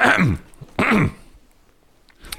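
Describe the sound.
Throat clearing in two short, rough, raspy bursts separated by a brief pause, with near silence after them and no talk.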